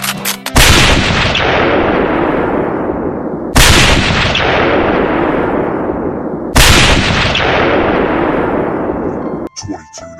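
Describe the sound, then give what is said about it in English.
Three loud gunshots come from a gun on a grassy knoll aimed at the president. They are sharp blasts spaced about three seconds apart, and each rings out in a long, fading decay. “That guy on the grassy knoll's got a gun. He's gonna shoot the president.”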